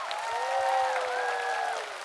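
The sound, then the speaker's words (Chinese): Studio audience applause for a young singer and her band at a live televised music show: steady, even clapping with a sustained tonal note ringing above it throughout. “好，来给我们彤彤和乐队掌声，谢谢三位年轻人。”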